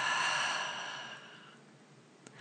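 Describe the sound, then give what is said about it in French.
A long breath is released through the mouth during a slow guided breathing exercise, a soft airy whoosh that starts full and gradually fades to near silence. No one speaks. “Prendre une longue inspiration par le nez et relâchez complètement par la bouche.”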